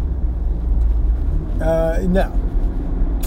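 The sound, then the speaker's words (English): A car drives along Valley Road, giving a steady low engine and road rumble throughout, with a brief voice-like sound partway through. “So here we go. We're driving down Valley. Valley Road, take me home.”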